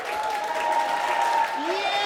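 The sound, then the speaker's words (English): Applause and cheering from a room of health professionals at the Mayo Clinic in Rochester, Minnesota, encouraging colleagues who throw and drop imaginary balls in a game; a loud, steady, continuous wash of clapping. “a room full of health professionals is cheering on colleagues throwing and dropping imaginary balls.”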